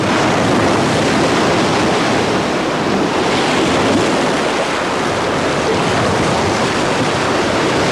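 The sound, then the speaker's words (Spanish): Waves break on a beach lined with metal cross-shaped obstacles planted in the sand, producing a loud, continuous rushing roar of surf with no pauses or distinct individual crashes. “Las olas mueren contra las balizas metálicas en forma de aspa plantadas en la playa para impedir el atraque de barcos enemigos.”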